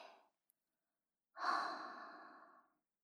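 A person breathing during a guided breathing exercise: the tail of one breath fades into silence, then a long, soft, airy breath swells and slowly dies away, alone and unhurried.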